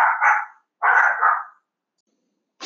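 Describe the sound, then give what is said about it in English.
Dogs bark in a few short, mid-pitched bursts, with two clusters of barks close together, a pause, and another bark starting at the end; no one talks. “Sorry about the dogs there, guys. I have now prevented them from barking further.”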